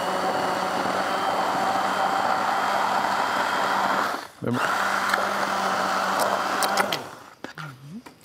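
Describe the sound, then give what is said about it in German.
A kitchen blender briefly mixes food with a steady, high motor whir for about four seconds, cuts out for a moment, then whirs again for a shorter burst before it stops and quieter handling noises follow. “Willst du das Ganze noch mal pürieren oder kurz, wie? Kurz mixen, ja. Mhm. Ja, okay. Ich muss kurz mixen.”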